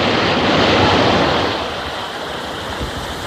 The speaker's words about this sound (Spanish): ¿Nota la brisa del metro? ¡Oh! ¡Qué sensación!